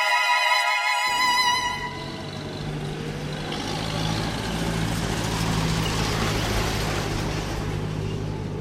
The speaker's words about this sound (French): Des rafales de vent froid, des rouleaux de poussière ocre et un balai incessant de camions géants chargés de pierres.